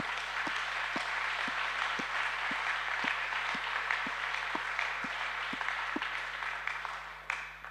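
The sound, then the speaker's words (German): Applause rises from an audience during a church service, a dense, steady wash of clapping that holds for the whole stretch, with a regular low pulse beating underneath at an even pace. “Komm, wir geben Gott mal einen richtigen Applaus.”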